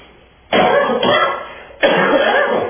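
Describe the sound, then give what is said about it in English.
Two loud, harsh coughs come from someone with a seasonal chest cold and congested lungs. Each sharp onset trails off into a rough, rasping tail, with a brief pause between the two. “the inevitable cough was coming. That's that time of year.”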